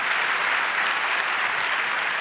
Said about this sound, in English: give her a huge round of applause